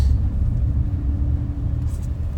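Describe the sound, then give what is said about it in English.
Steady low rumble of a Chevrolet Silverado pickup accelerating onto a main road, a smooth run with little engine noise, the deep drone constant throughout with no distinct gear changes. “All right, we're accelerating out onto uh, the main road here.”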